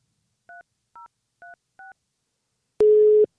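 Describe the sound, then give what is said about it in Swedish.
A telephone number is keyed in to call someone: four short, evenly spaced dual-tone keypad beeps, then a sharp click and a longer steady tone that ends abruptly. “Så vi eh, tänkte helt enkelt ta och ringa upp några ungdomar och se vad de säger.”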